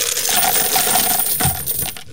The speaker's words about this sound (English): I've got some coins, too, that I brought to help out KFJC.